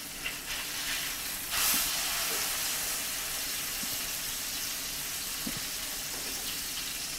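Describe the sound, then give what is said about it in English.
Salmon frying in a pan gives off a steady, loud hiss and sizzle that runs through the whole clip, with one brief swell early on. “And I can't say enough, don't overcook your salmon. You want it to be nice and moist. That's looking really good.”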